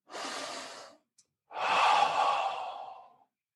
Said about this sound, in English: Now take a very deep breath.